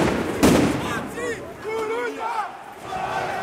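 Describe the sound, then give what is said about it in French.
A heavy smashing crash, windows broken with sledgehammers at bank fronts during a street riot, lands as one loud sharp impact early on, followed by a crowd of shouting voices that carries on steadily to the end. “Et là, on entend le bruit de vitres qui sont brisées à coups de masse.”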